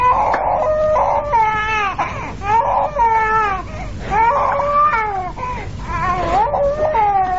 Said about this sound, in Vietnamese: Khi người với xe bò gần gặp nhau thì đứa con nít dùng khóc lên.